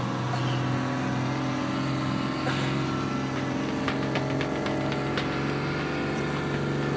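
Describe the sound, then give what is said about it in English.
A big wheeled vehicle in a video game drones as it tries to ram the player. The engine gives a steady, mid-low hum with a level tone and loudness throughout, and no one talks over it. “Oh, it's a big vehicle! A vehicle? Yeah, it's got wheels! Oh. It's trying to ram me!”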